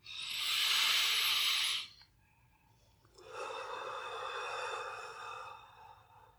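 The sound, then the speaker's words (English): Deep breathing from a group taking breaths together during a workshop: a loud, airy rush of breath, then after a short quiet gap a longer, softer breathy whoosh that slowly fades. “So let's take three deep breaths together.”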